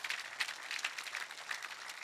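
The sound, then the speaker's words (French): Church audience applauding: faint, continuous clapping from many people, with crisp scattered hand claps across the whole stretch. “Ceux qui le croient et qui le vivent, est-ce qu'on peut applaudir notre Dieu?”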